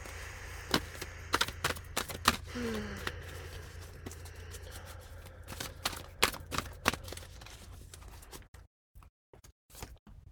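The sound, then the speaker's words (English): A Light Seer's Tarot deck is shuffled and a card is pulled, giving many crisp, irregular snaps and flicks of cards. The sound then drops to near silence, with a few last clicks. “I was drawn to the Light Seeros Tarot by Chris Ann. And my intention is to pull a card that you, person listening, needs to hear right now.”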